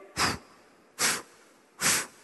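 A preacher draws three deep inhalations, each a short, airy, hissing breath of about a quarter second, evenly spaced with quiet gaps between them.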